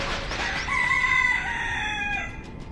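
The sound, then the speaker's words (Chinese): A rooster crowing once, a loud, strained, harmonic call held for about two seconds over a faint background hiss. “曹解放逃得远远的，亮着嗓子打鸣。”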